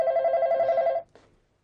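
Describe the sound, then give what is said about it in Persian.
A telephone rings with a bright, steady electronic warble for about a second, then cuts off abruptly, followed by a soft click as the line goes quiet. “بابا، بچه چرا پس تلفن رو بر نمیدارین عزیزم؟”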